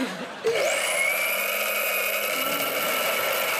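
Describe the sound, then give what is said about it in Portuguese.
An electric coffee grinder grinds coffee beans. It starts abruptly with a loud, steady mechanical whir that holds at an even pitch and level. “Mãe, tens de moer agora os grãos de café?”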